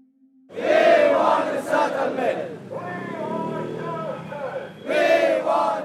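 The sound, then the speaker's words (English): Hunger-striking protesters chant together outside UNHCR headquarters, many voices shouting in loud rhythmic bursts that rise and ease, then surge again near the end. “We are here in front of UNHCR headquarters. Already start hunger strike and we chant.”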